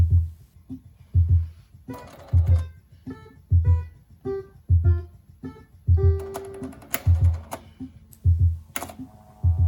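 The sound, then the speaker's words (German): A Yamaha Portasound MP1 keyboard plays a simple melody in short electronic notes, each paired with a low mechanical thump in a steady rhythm, with clicking toward the end. “plotten und somit die wunderbaren Symphonien des Yamaha Portasound MP1 auf Papier zu verewigen. Spielen wir also eine Melodie.”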